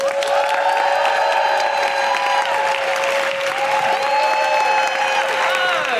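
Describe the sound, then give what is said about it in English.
Loud applause and cheering from a comedy audience at King's Place as a comedian is welcomed to the stage, with sustained whoops rising over dense clapping throughout. “Please welcome to the stage, with incredible woohooing, Michelle de Swarte!”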